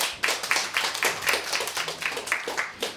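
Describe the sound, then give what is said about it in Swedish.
A studio audience of visitors applauds with many sharp, uneven hand claps, fairly loud and steady throughout, with no talk. “Ja, en applåd.”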